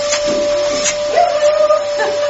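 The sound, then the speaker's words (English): A vacuum cleaner hoovers loudly, giving off a steady, high, tonal motor whine over a hissing airflow. “Right, well, I'll just hoover loudly.”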